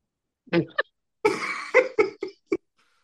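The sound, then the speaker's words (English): Someone coughs while choking on a gummy worm: an irregular run of short, sharp coughs and hacks, with one longer rasping cough in the middle, separated by brief silences. “Yeah, keep coughing.”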